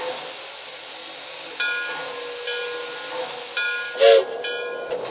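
Steady rumble and hiss of an Amtrak passenger train running, with a few brief, louder tonal bursts rising above the continuous noise.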